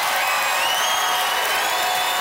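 Applause and cheering from an audience voting by applause in a debate about making Saskatoon a capital city, a steady, even wash of clapping throughout.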